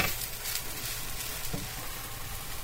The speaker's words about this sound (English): And because the pan's really hot, you want to keep an eye on it to not burn it, okay?